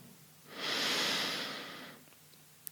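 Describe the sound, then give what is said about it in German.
A single deep breath drawn in slowly during a yoga breathing exercise, a soft airy rush that swells, holds steady and fades over about a second and a half, alone without talk. “Atme mal ganz tief ein.”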